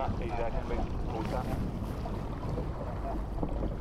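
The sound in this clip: Rowing eights race side by side against a school crew on the Thames Tideway. A continuous rush of wind and water is heard with muffled voices, but no distinct individual strokes.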